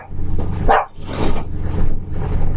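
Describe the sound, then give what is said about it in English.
A dog barks at an intruder breaking in through a window. Several loud, rough barks repeat at a steady rhythm over a low, constant hum. “Are you barking at the guy breaking in the window? After he breaks into the window?”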